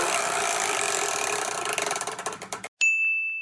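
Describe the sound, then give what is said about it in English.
A giant prize wheel spins, its ratchet clicking in a dense whirring blur that slows into distinct, spaced clicks before stopping. After a brief silence, a bright high ding rings out and sustains to the end. “would you be so kind to spin the giant wheel that's behind you?”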